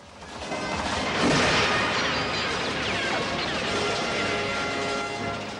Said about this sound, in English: The RV smashes into the gates, pushing them open.